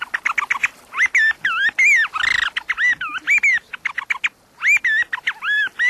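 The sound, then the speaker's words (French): A wooden bird call imitates blackbird song with many short, shrill, warbling whistled phrases in quick bursts and brief gaps, plus one louder, harsher squawk near the middle. “Elle faisait du merle avec ce... Avec ce merle en caoutchouc. On a plusieurs modèles pour faire le merle. Et celui-ci en bois, là...”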